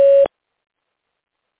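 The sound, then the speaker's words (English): A phone system beep before recording a message: a single short, steady tone cuts off abruptly into silence. “Please record your invitation for this caller to join you in a private conversation. Record after the tone. Hit any key when you're done.”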